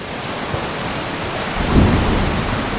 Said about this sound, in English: What you do notice is that there does appear to be a very lightning heavy storm